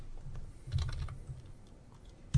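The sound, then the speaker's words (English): Quick, soft clicks of a computer keyboard as a search query is typed into a game store, a steady patter of keystrokes over a low background hum. “But if you click into the search, yep, search something like Star Wars or Batman.”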